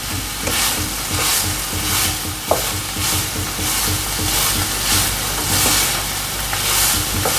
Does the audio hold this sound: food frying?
yes

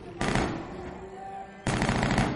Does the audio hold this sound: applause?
no

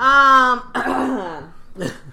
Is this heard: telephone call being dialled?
no

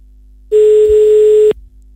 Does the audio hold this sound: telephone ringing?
yes

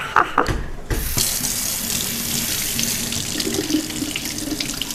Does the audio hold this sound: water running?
yes

